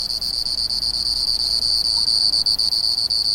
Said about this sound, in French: zzzz qui monte, qui monte, qui monte, et qui à un moment sort totalement du bruit du torrent. Et alors là, il devient parfaitement perceptible et audible vis-à-vis des autres grillons.